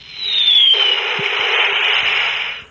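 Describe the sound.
A toy noise box plays a bomb-drop sound effect at a food trailer's grand opening. A high whistle falls in pitch, then an abrupt, loud, hissing explosion sustains for about two seconds before tapering off.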